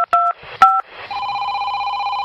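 Mobile phone keypad dialing tones: two short dual-pitch beeps, each opening with a click, followed by a steady, continuous electronic tone, with no talking.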